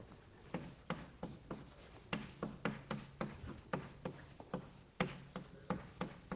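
Writing on a board during a mathematics lecture: many short scratchy strokes and taps in an uneven rhythm, fairly faint, with no talking over them.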